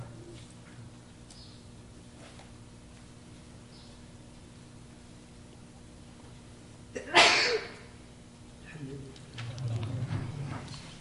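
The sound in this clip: A single sharp, explosive sneeze breaks through the faint hiss of a quiet religious lesson, followed shortly by a person speaking.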